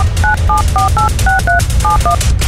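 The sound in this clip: Telephone number being dialed on a touch-tone keypad: eight short, clear dual-tone beeps in a quick, slightly uneven rhythm, loud over a low rumbling background.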